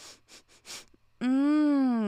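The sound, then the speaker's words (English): A voice imitates one person leaning in to sniff another: four quick, sharp sniffs, then a long, loud, drawn-out vocal tone. “But before he walks away, he just leans in and starts sniffing Fred and goes,”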